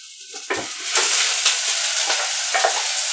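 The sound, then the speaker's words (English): Onions sizzle and burn in a frying pan, still hard rather than softened, giving a continuous bright hiss broken by several scraping stirs of a utensil against the pan. “Can you hear that? Can you hear the onions burning? And yeah, they're not soft. They're just hard burning onions”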